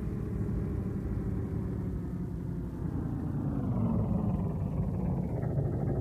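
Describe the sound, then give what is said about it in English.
A military vehicle arrives with a low, steady engine rumble that grows slightly louder toward the end. “Just as I feared. A military vehicle. And a very business-like looking captain sitting beside the driver.”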